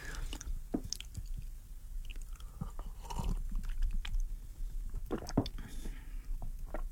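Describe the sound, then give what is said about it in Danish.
Small sips of water taken to ease dry lips and throat: soft wet mouth clicks and swallowing sounds, a few quiet irregular smacks over a faint background hiss. “Jeg drikker bare lidt vand i aften. Jeg synes, jeg bliver tør i læberne og svælget.”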